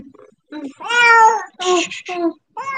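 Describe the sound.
A cat meowing while giving birth lets out several loud, drawn-out meows, each followed by a brief pause.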